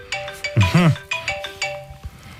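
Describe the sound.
A mobile phone ringtone, an electronic melody of short repeated tones that keeps sounding while people talk over it.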